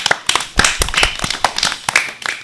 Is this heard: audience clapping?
yes

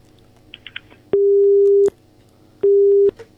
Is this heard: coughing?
no

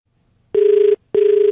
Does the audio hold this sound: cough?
no

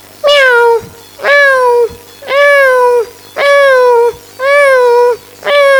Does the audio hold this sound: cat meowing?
yes

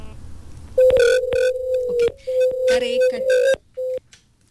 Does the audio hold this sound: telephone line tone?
yes

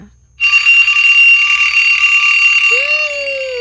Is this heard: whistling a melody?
no

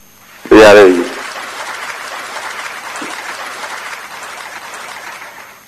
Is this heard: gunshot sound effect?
no

